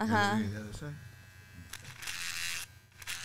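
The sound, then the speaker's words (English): An electric shaver buzzing as it shaves a father's face, a steady mid-pitched drone with a few brief louder surges. Voices talk over it at the start. “I'm shaving the other. I'm shaving.”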